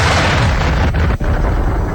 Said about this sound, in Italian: Ecco il suono delle bombe russe sul teatro di Mariupol